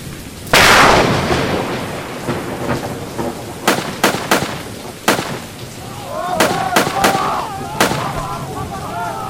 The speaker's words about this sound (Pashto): هغوی د هغه مخامخ دکان نه په موږ باندې ډزې کوي.